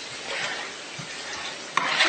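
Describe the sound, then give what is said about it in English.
Stirring and mixing of a German potato salad seasoned with black pepper: a steady, fairly loud scraping rustle throughout, with one brief sharp knock near the end. “So we'll just mix this all up.”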